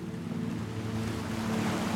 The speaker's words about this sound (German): Das Rauschen des Meeres ist so angenehm beruhigend.